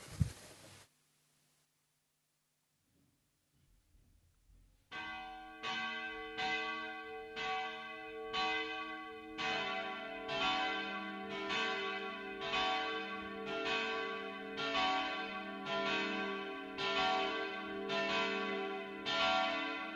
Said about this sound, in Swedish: Då lyssnar vi till kyrkans klockor.